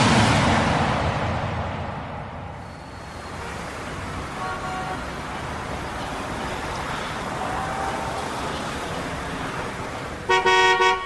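A car horn gives one brief, loud toot at the very end, rising over a continuous rushing wash of vehicle and road noise.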